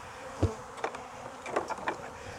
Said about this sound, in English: I'm gonna just go shake as many bees into the hive butler as I can. So we're taking as many of the foragers as we can.